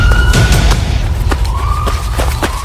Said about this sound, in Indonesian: Bos, lari bos. Kita dikepung polisi.